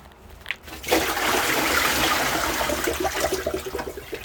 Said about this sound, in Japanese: 今は低温調理器で使った水を流した音ですね。